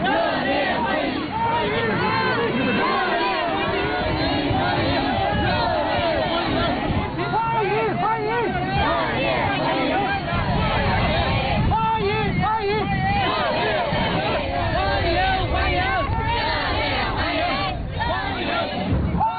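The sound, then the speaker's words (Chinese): Overseas Chinese residents and students lining both sides of a road cheer and call out in welcome as a visiting head of state's motorcade passes. They wave Chinese and American flags, and the dense crowd noise runs steadily throughout, under a speaking voice. “习近平乘车从机场赴下榻饭店途中，华侨华人和留学生代表聚集在道路两旁，挥舞中美两国国旗，热烈欢迎习近平主席到访。”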